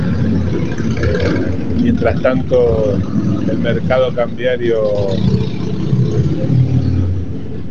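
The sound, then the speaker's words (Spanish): Street background noise with passing cars, a steady low rumble of traffic and engine hum running continuously beneath a person talking throughout. “Perdón el ruido de fondo, pero estoy en la calle, como se darán cuenta.”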